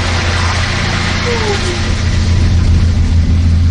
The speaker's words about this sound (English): We pack up and run down, barely making the last bus of the day. This bus is headed back to the visitor center.